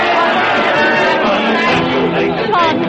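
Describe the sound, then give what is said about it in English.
Irish and English soldiers cheering and shouting together as a large crowd, a dense, steady wall of overlapping voices that stays loud from start to finish. “Sean Doo's Irishmen and the English soldiers cheering and shouting together, both glad 'tis over.”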